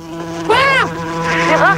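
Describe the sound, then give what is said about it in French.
Flies buzz in a steady, droning hum that runs through the whole clip, with two brief wavering, whine-like swells rising above it. “Les mouches arrivent, c'est Gérard qui arrive”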